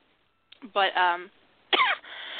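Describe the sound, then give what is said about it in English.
A person coughs in two harsh, voiced bursts separated by a short pause, loud and close against an otherwise quiet background. “Sorry for the coughing”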